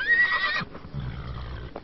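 A horse neighing, a short high whinny that quavers and then drops away into low snorting and faint shuffling.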